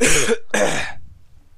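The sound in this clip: Two sharp throat-clearing coughs from a person with something caught in their throat, close together and loud, followed by quiet.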